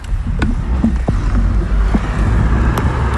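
An electric scooter sets off at low speed in second gear as its trigger throttle is pressed. A low, steady rolling rumble carries a few sharp clicks and knocks.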